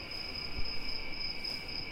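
Crickets chirping in a steady, unbroken high trill, fairly quiet and heard alone with no voices.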